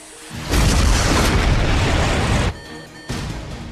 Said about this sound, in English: Air Force One has suffered an indirect hit by an air-to-air missile.